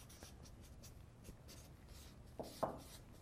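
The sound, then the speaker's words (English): Handwriting with a pen or pencil: faint, scratchy strokes run softly and irregularly throughout, with a couple of slightly louder strokes near the end. “Maybe I'll just write, do what is good”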